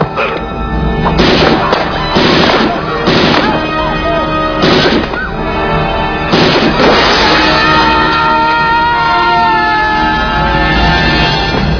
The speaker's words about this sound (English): Nice shooting, son.